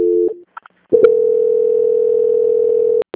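Telephone call-transfer tones: a brief two-note burst and a couple of faint blips, then a long, steady, loud tone lasting about two seconds that ends in sharp clicks.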